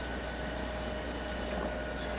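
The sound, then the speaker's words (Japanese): A train pulls in at a station platform on a service bound for Tokyo, with a steady, unbroken low rumble and hum running through the whole stretch at a fairly quiet level, with no distinct clanks or squeals standing out. “この電車着きました。”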